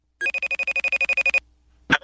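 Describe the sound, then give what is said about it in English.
An outgoing FaceTime video call rings: about a dozen short, bright tonal beeps in a rapid, even train, then a pause and one brief noisy burst. “Let me see if this works. Hold on. Oh, look at that. It's ringing.”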